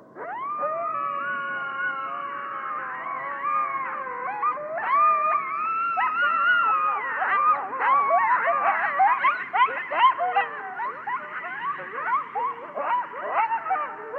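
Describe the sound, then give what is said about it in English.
Coyotes howl in Yellowstone National Park: a chorus of overlapping high, wavering howls that gives way to many rapid yips and warbling cries, continuous and fairly loud throughout. “This is the sound of coyotes here at Yellowstone.”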